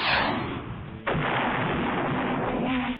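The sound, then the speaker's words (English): A missile fired from a chest makes a loud, broad rushing blast. It roars through the opening second, then a sharp burst hits at about one second and a dense, sustained whoosh carries on to the end. “how about I give you one of these missiles from my chest?”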